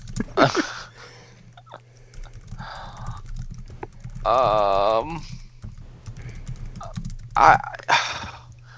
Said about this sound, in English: Cheese stick unwrapping sounds.